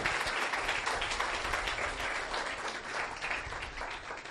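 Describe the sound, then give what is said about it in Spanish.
Congregation applause during a bilingual church service, a dense, steady wash of many hands clapping together, loud and sustained throughout without pause. “Let's clap our hands together for un aplauso time.”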